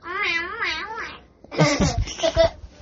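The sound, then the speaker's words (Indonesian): A sulking cat gives a long meow whose pitch rises and falls as it wavers, followed after a short pause by further rough, broken cries. “Kucing bisa ngambek? Iya. Maksudnya gimana? Ya kucingnya ngambek”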